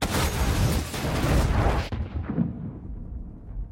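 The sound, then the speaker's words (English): A pile of wrecked vehicles explodes after a detonator button press, giving a loud, dense roaring blast that cuts off sharply into a low, rumbling tail that slowly fades. “presses a detonator button. A pile of wrecked vehicles explodes.”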